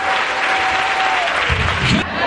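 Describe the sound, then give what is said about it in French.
Church audience applauding in praise, loud dense clapping that holds steady, then drops off sharply near the end. “On peut acclamer le Seigneur, s'il vous plaît. Est-ce qu'on peut acclamer Jésus?”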